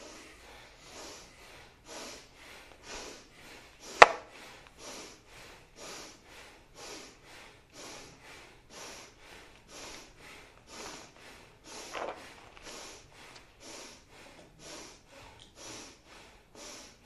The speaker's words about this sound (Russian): Поехали, дышим бхастрику.